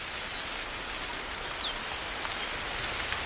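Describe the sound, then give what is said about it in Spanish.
A coal tit sings in winter, a quick run of high, thin repeated notes lasting about a second, over a steady soft rustling hiss like falling drops. “y sobre todo escuchamos la voz de un atrevido, de un osado. En pleno invierno, con el frío, un carbonero garrapinos está cantando como anticipándose a la primavera.”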